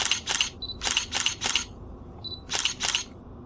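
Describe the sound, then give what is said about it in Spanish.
Camera shutter clicks at a lookout reached by climbing stairs: seven crisp clicks in quick pairs and triples, with two brief, faint electronic beeps between the bursts. “Vamos, chicas, tomemos unas fotografías.”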